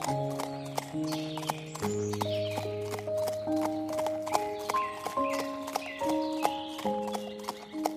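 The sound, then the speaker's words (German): Horse hooves clip-clop in a quick, steady rhythm, with many crisp strikes over sustained background music notes. “Doch wenig später galoppiert es auch schon. Und zwar so schnell, wie seine Hufe es tragen.”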